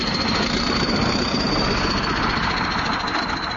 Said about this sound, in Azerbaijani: Yük maşınlarından boşaldılan zibillərdən əmələ gəlmiş təpəcikləri traktorlar əzib hamarlayır.